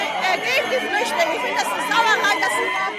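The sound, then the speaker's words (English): Demonstrators gather outside Berlin's refugee reception centre, a steady babble of many overlapping voices at a moderate level. “For now, German towns and cities struggle to cope with a record number of asylum seekers. Outside Berlin's refugee reception centre, a demonstration's underway.”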